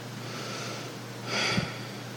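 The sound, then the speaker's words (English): A woman breathes hard, one forceful, sniff-like breath rising briefly out of a faint steady background hum. “she's trying to breathe me away. She thinks if she breathes hard enough, I'll leave.”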